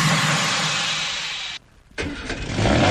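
A car engine starting: loud, dense engine noise that cuts out abruptly for a moment, then resumes just as strong and swells again toward the end, with no voices.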